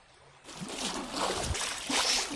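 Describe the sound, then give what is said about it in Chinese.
Water splashing in the pool of a royal bathhouse begins after a brief quiet moment, then continues as loud, surging swells of splashing. “好什么？至少别在浴池里游泳啊！怎么还泼起水来了？”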